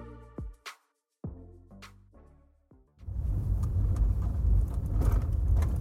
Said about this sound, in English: I'm driving in a black Chevy SUV up Foothill Boulevard towards Ramsdale.